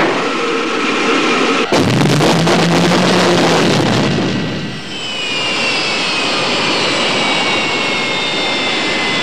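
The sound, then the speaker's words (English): Roaring engine of the original Batmobile, a famous car, from a sound-effects collection of car driving sounds: a sudden loud blast swells into a harsh rushing roar, then eases into a steady, high whining whoosh. “There's even a complete CD dedicated to the driving sounds of many famous cars, including the original Batmobile,”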